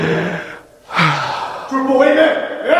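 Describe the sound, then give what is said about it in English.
Deep breaths drawn and released in quick succession, loud and breathy with a gasping, partly voiced edge. “Yeah, triple breath on that one, brother.”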